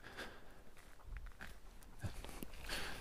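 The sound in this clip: Faint crunching footsteps on a wide gravel path through a large forest at night in the Black Mountains, a few irregular steps over a quiet, rustling background.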